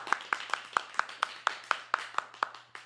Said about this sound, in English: Let's try the fast clap. See if it sounds like more people.